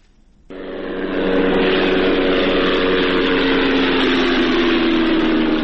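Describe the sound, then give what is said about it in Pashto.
An unmanned drone aircraft flies over Ghazni province. Its engine drone sets in abruptly and swells within about a second, then holds a loud, steady, buzzing hum with no voices. “دا د هغه بی پیلوټ الوتکې غږ دی چې پر افغانستان د طالبانو له حاکمیت څخه وروسته هم د غزنی ولایت تر څنګ د پکتیا، پکتیکا او ځینو نورو ولایتونو په هوا کې ګرځي.”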